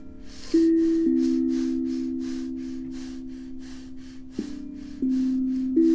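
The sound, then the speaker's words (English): Rapid breathing: many quick, rhythmic breaths in and out, short airy puffs over a sustained low drone tone. “To really channel the properties of Mercury, we're going to rapidly breathe for about 10 breaths in, out.”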